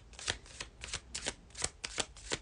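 Tarot cards being shuffled in about seven quick riffling bursts that come at a steady rhythm, each a crisp papery rustle, with no voices.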